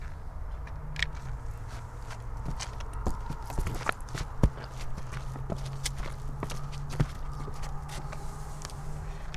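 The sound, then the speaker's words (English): Squishy footsteps outdoors near a tree: many soft, irregular steps that squelch quietly over a steady low background hum. “I'm going to put the microphone down here and I'm going to take some steps so you can hear my squishy feet.”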